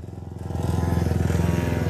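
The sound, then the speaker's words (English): A father's three-wheeler and a boy's small motorcycle ride by. Their engines make a steady, throbbing drone that grows louder over the first half second and then holds at a fairly loud level. “dad is on his three-wheeler and the little boy is on his little motorcycle.”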